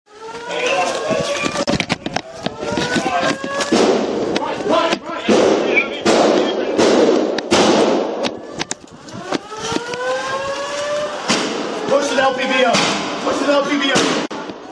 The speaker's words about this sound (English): Police say the shooting unfolded over about 14 minutes. They released body cam footage of the attack today. Before we play some of that, I just want to warn, it is disturbing.